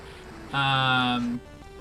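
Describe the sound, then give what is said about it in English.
A Pokémon video game plays its Fire Spin attack sound effect, a single steady, buzzy electronic tone lasting under a second, with a fainter low hum before and after. “But until then, we're just gonna hear that Fire Spin sound just over and over so much.”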